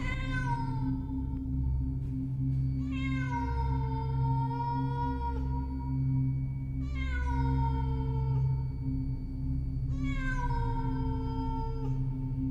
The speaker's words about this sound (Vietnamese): Tiếp theo đó ở bên ngoài lại vang lên tiếng mèo kêu meo meo, vang vọng đến rát ruột rát gan, rùng mình sởn tóc gáy.